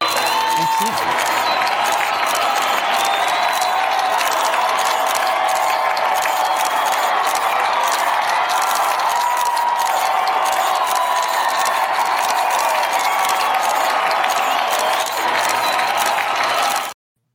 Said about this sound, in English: But look, we're going to bring him on, and guys, give a nice warm welcome to Kent.